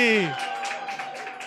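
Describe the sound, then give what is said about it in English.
Audience applause greets a performer coming on stage: a short spoken voice gives way to a brief, fairly loud burst of scattered clapping. “Let's get our first hero up on stage. Ladies and gentlemen, give it up for Lizzie Cassidy.”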